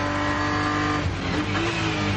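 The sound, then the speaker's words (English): A steady, loud engine roar from a BMW M Motorsport touring race car built for 24-hour racing, number 81, driving continuously with a dense, droning tone throughout. “Hugo de Vilder now behind the wheel of the number 81 BMW M Motorsport Touring 24H.”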